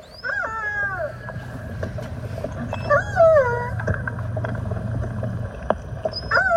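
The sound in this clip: Calls of a young two-year-old male orca calf circling and calling for its mother, captured by hydrophone: three bursts of squealing, harmonic tonal cries with bending, sliding pitch over a steady low droning hum.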